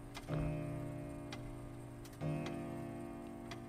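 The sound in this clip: Clock ticking in a room, faint and regular, with a few soft ticks over a steady low drone that swells briefly twice.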